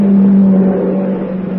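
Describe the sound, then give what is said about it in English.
A car approaching: a steady, low engine drone with a constant hum that holds at the same level throughout, then eases slightly toward the end. “No, wait. Here comes the car.”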